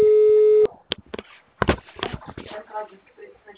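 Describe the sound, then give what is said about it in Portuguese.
Telephone busy tone after a dropped call: one steady, unbroken tone lasts just over half a second, then cuts off abruptly. Scattered rustling and shuffling handling noises follow. “Oi, seu Elton, a ligação caiu.”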